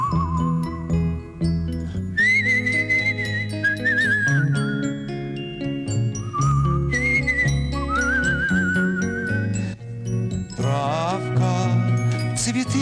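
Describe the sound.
A man whistles a slow tune among trees in a forest, with long held notes that waver and shift pitch, over steady music with bright jingling tones and no talk.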